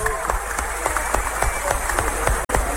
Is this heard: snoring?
no